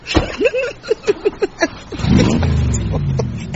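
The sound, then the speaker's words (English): A van engine revs hard, a loud roar that climbs and then holds steady to the end. “That's £2 worth of petrol just to rev it up.”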